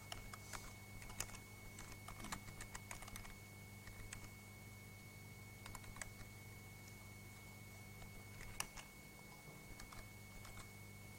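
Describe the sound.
Quiet typing on an English-layout computer keyboard while entering a directory-listing command: many irregular key clicks, some in quick clusters and others spaced apart, over a steady low electrical hum.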